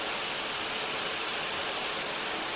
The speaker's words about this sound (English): In the bathroom, she turns on the showerhead.